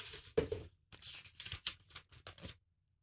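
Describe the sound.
A paper note is drawn and unfolded, giving a few faint, crisp bursts of rustling and crinkling separated by short pauses, with no talk.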